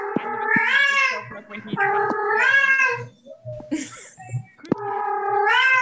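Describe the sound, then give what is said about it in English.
A cat meowing loudly in three long, drawn-out calls, with a voice speaking briefly between them. “Is that my cat? There is a cat.”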